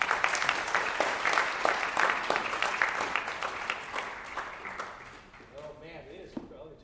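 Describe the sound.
Audience applause welcoming a guest speaker at a campus ministry gathering: dense, even clapping that gradually fades, after which a voice begins speaking.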